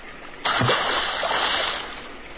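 A splash as someone falls into a basin of water near rapids in a cartoon: a sudden loud splash, followed by sustained rushing water that slowly eases off.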